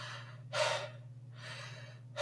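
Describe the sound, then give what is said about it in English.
Huge, deep gasps for air, as after surfacing from underwater: two long, loud, breathy gasps with a pause between, and a third starting at the very end, over a low steady hum. “when I breach for air, I take a huge, deep, like, just breath because I've been underwater for a good hot minute”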